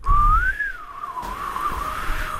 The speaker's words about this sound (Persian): چرا سوت میزنی